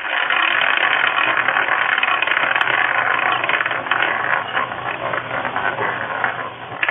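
A wheel spun to pick someone at random, a ball rolling around it: a loud, steady whirring rattle with fine rapid ticking that runs for about seven seconds, with no talk.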